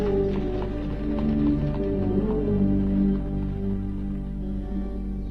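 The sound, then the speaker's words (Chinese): Hooves of a horse drawing a carriage clip-clop in a steady trotting rhythm over a constant low drone. “来到院子里，他把梅森放到早已准备好的马车上，自己坐到前边亲自赶车。”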